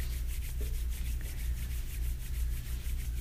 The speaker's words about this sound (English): Rub your palms together.